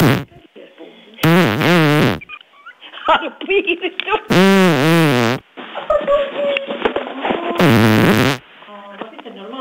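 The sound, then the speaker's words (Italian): A vaginal fart (queef) after sex: three long, wet, buzzing and fluttering bursts, loud and wavering in pitch, with talk in between. “Dopo che è stata a pecorina, quando si sdraia, le esce questo suono dal figone.”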